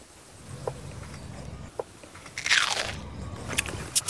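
Crisp crunching as a big prawn dipped in a golden sauce is bitten and chewed. A few sharp crunches give way to a denser burst of crackly chewing midway, then more scattered bites. No one speaks.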